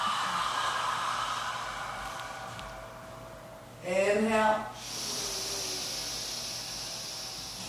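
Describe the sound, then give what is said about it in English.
Long, airy mouth exhales during a yoga breathing exercise. A soft hiss fades out, a brief spoken instruction follows, and then another steady breathy hiss continues to the end. “Exhale, mouth. Inhale, nostrils. Exhale, mouth.”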